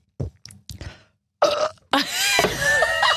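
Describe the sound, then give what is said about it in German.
A girly burp after drinking: a few short, soft throaty sounds lead into a loud, drawn-out rasping belch that holds for over a second before cutting off. “Was für ein ordinäres Geräusch. Bei mir? Oh, so ein Mädchenrülpser war das.”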